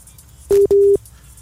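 Busy tone from a WhatsApp phone call that fails to connect: two short, steady mid-pitched beeps in quick succession, the second slightly longer, heard alone.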